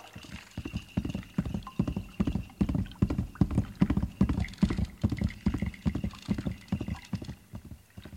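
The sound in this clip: Horse hooves clip-clopping in a quick, steady rhythm, many crisp hoofbeats following one another evenly at a moderate volume throughout.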